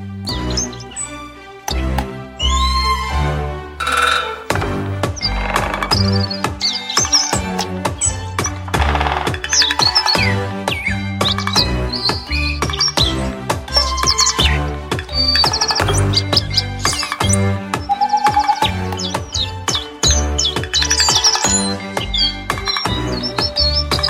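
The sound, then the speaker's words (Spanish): Bird-like trilling carries a modified Mozart opera melody in a recorder-like timbre, performed by birds; busy, continuous chirping runs sound loudly over a full musical backing for the whole stretch. “Con una ópera de Mozart, modificada, por supuesto, modificada para hacer trinos de pájaro, que sería la flauta dulce, pero interpretada por pájaros.”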